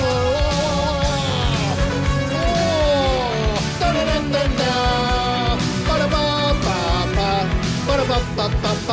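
A rock song with a bright synth melody plays on the radio, loud and continuous throughout.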